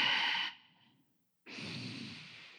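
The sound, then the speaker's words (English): Heavy breaths rush through the nose during a relaxation breathing exercise: two soft, airy, hissing breaths separated by about a second of silence, with no voice. “just blowing a heavy breath through your nose. Kind of do like a big cleansing breath.”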